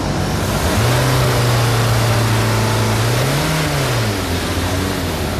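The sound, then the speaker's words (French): A car engine revs during an exhaust smoke emissions test at a vehicle inspection: a steady mid-pitched engine drone swells and rises in pitch for one acceleration before settling back, with no talk over it. “On va voir avec les accélérations si on est dans les normes.”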